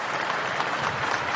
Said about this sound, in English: From the cathedral end of this famous ground. And the noise you can hear.